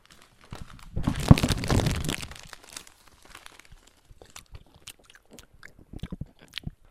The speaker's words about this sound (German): Komm, ich habe hier noch die Schokolade. Wollen wir sie essen?